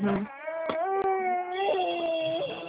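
A five-month-old infant cries softly in one drawn-out, whining wail that wavers in pitch, with a couple of brief catches in the breath.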